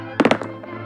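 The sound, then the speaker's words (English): Dice rolling in a game of Risk, with a cannon-fire quality: a quick cluster of three hard thunks, a lighter knock after, then another sharp hit at the very end. “That's the sound of the dice rolling. It kind of sounds like cannon fire, so that's cool.”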